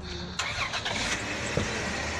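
A car engine starts with a sudden loud burst of cranking, then settles into a steady running rumble.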